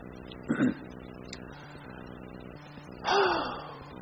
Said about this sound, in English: I get my breath.